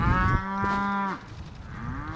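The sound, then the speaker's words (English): A female beefalo cow moos on a 650-acre ranch in south central Missouri, where grazing cows have calves nearby. One long, loud, low harmonic moo is followed by fainter lowing. “About 25 female beefalo, most with a calf nearby, are grazing on the 650-acre A&K Ranch in south central Missouri.”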